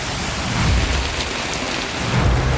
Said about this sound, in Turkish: Ankara'da yağmur yağdı